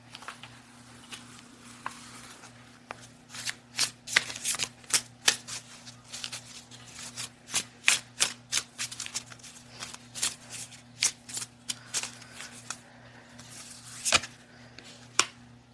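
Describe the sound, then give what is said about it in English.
Shuffling of a Spirits and Shadows Oracle card deck: many soft, quick riffling snaps and patters come in irregular clusters. The sound is faint, over a low steady hum. “let's pull a card from my Spirits and Shadows Oracle deck to give us some food for thought for the coming month.”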